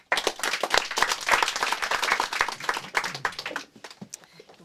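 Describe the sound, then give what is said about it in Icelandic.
Audience applause for a poet at a reading event: a loud burst of many hands clapping that holds steady, then thins to a few scattered claps before dying away near the end. “við skulum gefa henni gott klapp”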